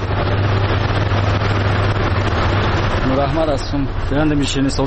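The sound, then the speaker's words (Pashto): A sheerini sweets-making machine runs in a sweets workshop with a steady low mechanical drone, and a voice starts talking over it in the last two seconds. “د نوموړي خبرې د شیرنۍ جوړولو د ماشین په غږ پیلېږي”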